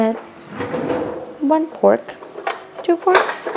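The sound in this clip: Cutlery clatters in a kitchen as two forks are picked up to shred cooked chicken, with several sharp metallic clinks and scrapes in an irregular sequence along with drawer-like knocks.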